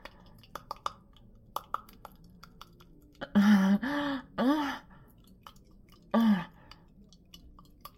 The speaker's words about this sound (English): What if I lick really fast like this?